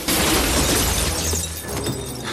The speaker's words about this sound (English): A bullet breaks the glass and hits Spikings in the back, dropping him to the floor.